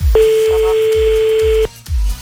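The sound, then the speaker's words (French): A ringing tone as a telephone call is placed: one long, steady tone holds for about a second and a half, then cuts off abruptly, while a low rhythmic thump pulses underneath the whole time. “Allez hop, on appelle maintenant donc.”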